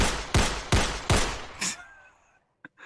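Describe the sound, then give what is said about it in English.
Gunshots fired into the air by a masked man: several sharp, loud bangs in quick, evenly spaced succession, each with a ringing decay, then the firing stops and a short, faint click follows in the quiet. “he raises his right arm into the air and fires 6 shots.”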